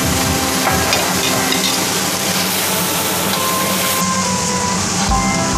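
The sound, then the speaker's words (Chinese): Loud, steady sizzling as potato slices are stir-fried with fried pork liver, a dense continuous hiss that lasts throughout with no voices. “等猪肝炸的香味散发出来，加入土豆片翻炒。”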